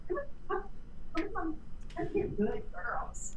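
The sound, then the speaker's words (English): Pet dogs at home bark at a delivery truck that has pulled up: a rapid series of sharp barks and high yips, fairly loud and uneven. “my dogs are desperately trying to, guard me from the FedEx truck.”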